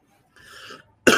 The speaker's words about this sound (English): Sorry, I just have a cough.